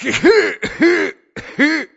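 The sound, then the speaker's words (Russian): Harsh, hoarse coughing from an old man, voiced by a person imitating it, comes in three strained, throaty bursts with brief pauses between them. “И старичок погрузился в свой кашель.”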